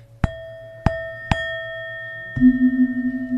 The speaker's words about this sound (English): So this Tibetan bowl is made of seven different metals, and they all interact with each other to produce a very rich, harmonious sound.